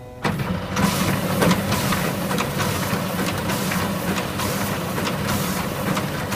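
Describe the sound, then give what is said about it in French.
A scanner digitises baccalaureate exam papers at a French lycée in Rome, giving a steady, loud mechanical whir and rumble. Sharp clicks and ticks recur through it as the sheets feed. “Et je démarre le traitement.”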